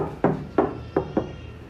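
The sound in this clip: Knocking on an apartment door off a corridor: four dull, hollow knuckle raps in an uneven rhythm, two spaced knocks, then two quicker ones, each brief and low, with quiet background and no talk.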